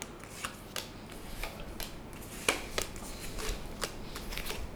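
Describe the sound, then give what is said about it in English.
Playing cards being dealt out during a card game: a long run of crisp, papery flicks and slaps in an irregular rhythm, fairly soft and steady throughout. “Give out cards.”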